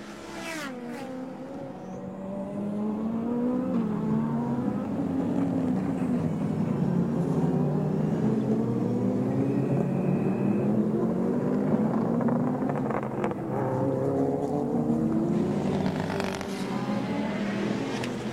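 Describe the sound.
Turbocharged four-cylinder race cars at a Japanese Super GT championship round at Okayama roar loudly and continuously, with several engines overlapping and their pitch sweeping up and down through gear changes. No one talks.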